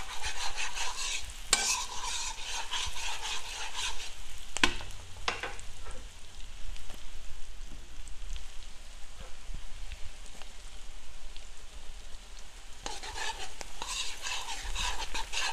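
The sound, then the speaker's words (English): Garlic fries in a pan while it is stirred constantly, giving a dense, steady sizzle with scraping stirring sounds and a few sharper clatters throughout. “Stir it up so that your garlic doesn't burn too much. So make sure that you are constantly stirring this.”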